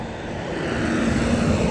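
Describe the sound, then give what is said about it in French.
A car passes slowly, a steady, broad engine and road rumble with a low hum, holding almost level and building slightly toward the end. “Ah, la dernière voiture qui passe, je suis désolé, je t'embête”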